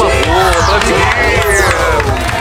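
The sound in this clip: Loud crowd cheering from a women's audience at a live show, with shrill whoops and overlapping shouting voices forming a dense, continuous roar throughout and any clapping buried beneath the yelling.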